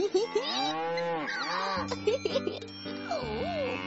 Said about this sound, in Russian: И скоро наткнулся у опушки леса на стадо божественно красивых коров.